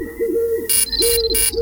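A wake-up alarm plays from a phone app, with a soft dove-like cooing tone running throughout and a few bright, buzzy bursts that carry a high whistling note over it.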